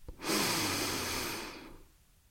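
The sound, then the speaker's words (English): A single long, deep breath drawn steadily and heard alone, its breathy rush swelling quickly and then fading out. “let's take a deep breath.”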